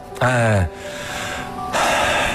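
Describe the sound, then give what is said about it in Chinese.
A deep breath drawn in, demonstrated as a calming technique: a short voiced gasp, then a brief pause and a longer breathy rush of air, moderately loud and alone. “这时候怎么办呢？书里说了，深呼吸，”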